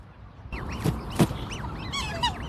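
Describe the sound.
Honking calls of black swans kept and fed by a keeper, a few wavering, nasal calls that rise and fall, with two short thumps among them.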